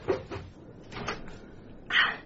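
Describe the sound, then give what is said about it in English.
A door in an old chateau is unlocked and opened: a few faint knocks and latch clicks spaced out over a couple of seconds, with a sharper, louder click at the end. “As Amont opened the door, I pushed past her in my eagerness”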